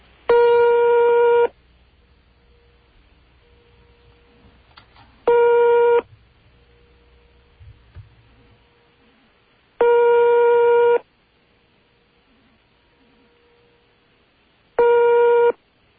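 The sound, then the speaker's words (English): Ringback tones on a telephone call to Yugoslavia: four loud buzzing rings of uneven length, some short and some long, separated by long quiet gaps. “And that's a phone ringing. A phone ringing in Yugoslavia.”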